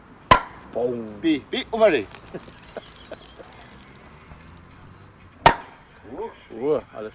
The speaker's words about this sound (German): Das dritte Bier des Tages wird gerade geöffnet.